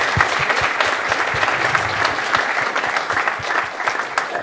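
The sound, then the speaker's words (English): Applause from an audience: dense, steady clapping from many hands, holding an even level throughout with no talk over it. “I think we should have a round of applause”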